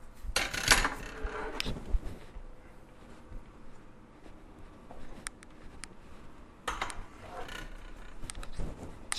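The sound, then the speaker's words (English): Blackboards being set up: clattering, sliding and rattling bursts with a metallic edge, bunched early on and again near the end, with quieter rumbling and knocking in between. “Let me just set up the blackboards here because I need to write some comments on here as we go along.”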